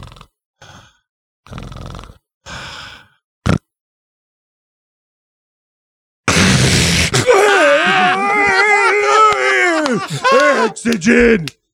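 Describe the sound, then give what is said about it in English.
A voice imitates the strained breathing of a sleep apnea sufferer who uses CPAP. A few short vocal bursts and a pause lead into a long, loud stretch of groaning, gasping breaths with wavering pitch. “This is the way CPAP, sleep apnea people breathe. All right. Here it goes like this.”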